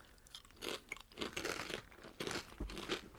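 French truffle and sea salt chips crunch as they are chewed, with several crisp, crackly bursts in an irregular rhythm. The sound is fairly faint and plays alone.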